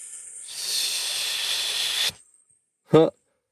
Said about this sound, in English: just a long hissing sound kind of helps to set up the right style of compressive breathing